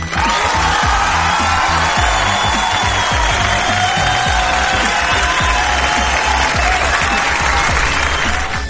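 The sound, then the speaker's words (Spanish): Studio audience applause: dense, loud clapping that holds steady throughout, with a light crowd murmur underneath. “¡Aplausos!”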